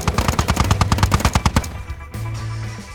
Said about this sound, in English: The chain gun is tearing through us.